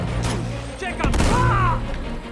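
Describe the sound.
Grenade explosion in a video game, a single sudden boom about midway with a rumbling tail. A voice talks before and after the blast.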